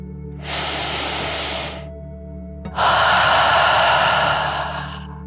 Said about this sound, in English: take one more deep dragon breath in and out.